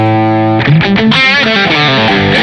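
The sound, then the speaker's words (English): An electric guitar is played hard through a distortion effect. A held, ringing note gives way to a loud, gritty burst of chords and notes with a thick, buzzing, broken-up tone. “And the effect you're hearing now is called distortion.”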